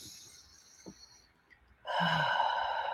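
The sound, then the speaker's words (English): A big deep breath taken as a calming pause: faint breathing at first, then a strong, airy exhale like a sigh that continues steadily to the end. “to sit back, to take that big, deep breath. Let's do that.”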